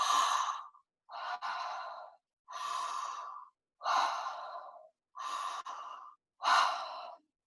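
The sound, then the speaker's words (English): Deep, full human breaths in a connected-breathing exercise, inhale running into exhale like a wheel. Six airy, breathy rushes come in a steady rhythm, each about a second long, heard alone. “we're removing the pause between the inhale and the exhale so that your breath just becomes like a wheel that's going around and around without pause. So it sounds something like this.”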